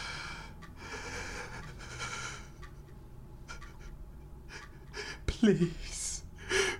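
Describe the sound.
Panicked, ragged breathing from a distressed man: uneven, shaky breaths with a sharper gasp near the end, over a faint background.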